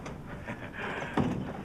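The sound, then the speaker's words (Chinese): A door being pulled shut gives one dull, low thump partway through, standing out briefly above a steady, faint background hiss. “你门关上。”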